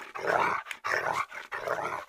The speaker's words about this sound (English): That's the problem with training your dog.